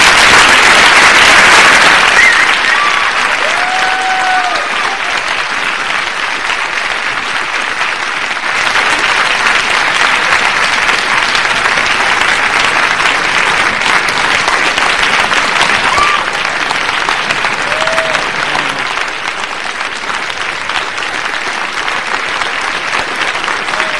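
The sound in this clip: An audience greets David Lynch and John Hayden with a long wave of applause. The dense clapping stays loud and steady for over twenty seconds, swells briefly partway through, then eases slightly toward the end.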